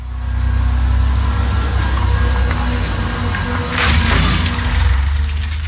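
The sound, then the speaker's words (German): Steady low engine rumble of a demolition excavator arriving in a Zurich suburb, droning without pause, with a brief rattling, clattering burst partway through. “In einer Zürcher Vorstadt fährt der Abbruchbagger vor. Neues entsteht, Altes muss weichen.”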